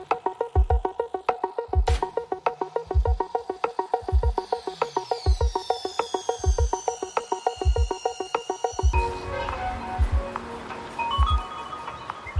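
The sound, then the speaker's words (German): Song built from recordings of factory and work sounds in Siemensstadt, with a steady rhythmic thumping beat under pulsing tonal layers; near the end it shifts to a denser, busier texture. “Sie müssen sich vorstellen, dort gibt es Fabriken, dort arbeiten Menschen und wir haben versucht, das einfach mal festzuhalten und haben einen Musiker mit einem Aufnahmegerät durch Siemensstadt geschickt und haben daraus einen Song gemacht. Und das hört sich ungefähr so an.”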